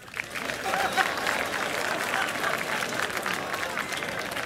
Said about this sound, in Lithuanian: Ponios ir ponai, audringais plojimais pasitikite.